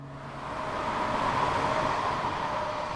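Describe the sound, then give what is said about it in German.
Four-lane car traffic rumbles across the Wettstein Bridge in Basel as a steady, broad roar that swells slightly in the first half second and then holds a constant, moderately loud level. “Auf der Wettsteinbrücke kommt uns vierspurig der Autoverkehr entgegen.”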